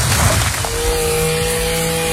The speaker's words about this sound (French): Tronçonneuse.